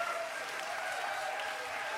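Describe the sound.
A crowd applauds a hardcore punk act at a live event. The dense, even clapping holds at a steady, moderate level from start to finish.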